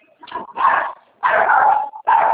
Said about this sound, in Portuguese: Cachorro, hein?